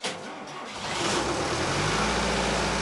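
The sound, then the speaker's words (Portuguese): A diesel generator powers machines at a boat factory on an island, a low engine drone that grows louder after a quieter start and then holds steady. “As máquinas são ligadas por um gerador a diesel.”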